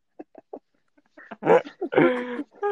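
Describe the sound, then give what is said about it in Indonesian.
A dog gives a few faint, short yips, then louder, longer barks and whines that follow in quick succession. “Wah, anjing ya.”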